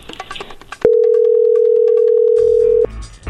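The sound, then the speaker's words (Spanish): Telephone dial tone while placing a call to Villa Hidalgo, Jalisco: one loud, steady, unbroken tone lasting about two seconds, with a brief burst of other sound before it and after it. “vamos a llamar a Villa Hidalgo, Jalisco”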